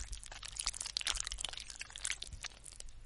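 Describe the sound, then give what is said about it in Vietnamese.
Bones cracking and crunching as they are chewed: a dense run of many irregular, sharp crackles and crunches, fairly faint, with no voices. “Thậm chí còn nghe rõ cả cái tiếng xương gãy rôm rốp.”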